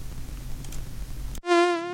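A mosquito's steady, buzzing whine starts abruptly after a stretch of rough noisy hiss and holds loud and even to the end.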